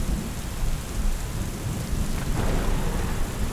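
Heavy rain pours steadily during a thunderstorm, a dense hiss of falling water with low thunder rumbling beneath and swelling briefly partway through.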